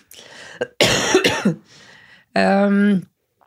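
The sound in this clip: A person coughs hard in a short, rough burst, then makes a brief, voiced vocal sound after a pause.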